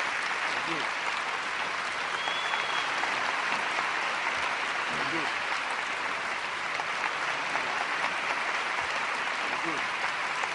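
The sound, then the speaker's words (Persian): A standing audience applauds as a tribute to artists, producing dense, steady clapping at an even loudness from start to finish. “از سر جاتون بلند شید و 10 ثانیه فقط دست بزنید همه با هم لطفا.”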